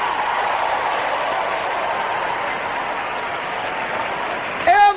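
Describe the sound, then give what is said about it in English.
Audience clapping their hands, a steady, dense wash of applause that holds at an even level throughout. “Come on, clap your hands, all you people.”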